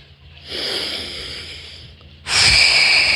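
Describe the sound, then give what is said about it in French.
Deep breaths in and out during a relaxation exercise: two long, airy breath sounds, the second noticeably louder and stronger than the first. “vous vous détendez, vous respirez trois fois”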